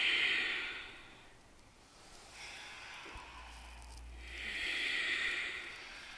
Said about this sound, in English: Keep your lips sealed. Move your breath in and out through your nose. Long and full.